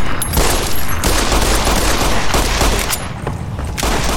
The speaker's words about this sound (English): So now we're going to go with the gun. Okay. I'm just going to shoot you in the head until you die.